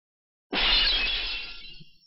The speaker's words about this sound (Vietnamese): Bình quý vỡ vụn tỏa ra ánh sáng rạng ngời, mảnh vỡ bay về tứ phía.